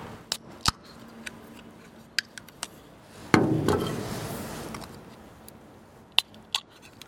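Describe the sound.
Coffee drinks being opened: a few sharp scattered clicks, then one loud hissing burst that fades over about a second and a half, followed by more isolated clicks. No one speaks.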